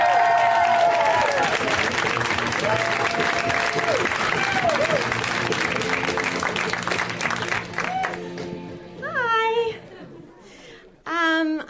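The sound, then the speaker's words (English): A studio audience gives loud, sustained applause and cheering to welcome a comedian onto a show. The clapping fades after about eight seconds, and then a voice speaks. “So are you ready? Are your hearts open? Yeah. I thought they would be. Let's hear it right now for Erica Rose. Give it up for Erica Rose.”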